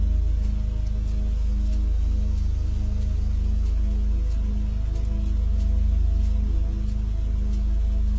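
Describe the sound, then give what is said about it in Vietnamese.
Heavy night rain pours steadily onto a road, windows and roofs, a constant dense hiss of drops that holds even in loudness throughout, with no talking. “Cơn mưa đêm tầm tã trút xuống đến cả ngàn tấn nước. Âm thanh ù ù của những hạt mưa bị vỡ tan khi va đập xuống mặt đường, va đập lên những ô kính cửa sổ, lên những mái nhà”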